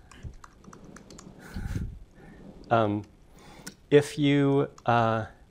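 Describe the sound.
Typing on a computer keyboard to write a commit message in a text editor: a run of light, irregular clicks, then a voice speaking.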